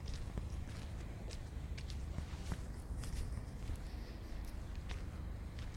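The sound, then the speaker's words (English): Footsteps of someone out on a late-night walk around midnight, a steady rough shuffle over constant low noise, with scattered soft clicks and scuffs throughout and no voices. “Taking a walk, smoking.”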